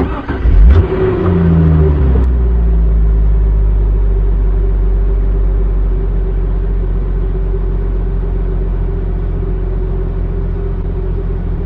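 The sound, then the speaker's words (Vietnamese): A car drives along a small road, its engine a steady, loud low rumble throughout, with a brief revving surge near the start before it settles into an even drone. “Dục Chu lái xe rất điệu nghệ, xe chạy trên con đường nhỏ mà Từ Dao không hề thấy sốc.”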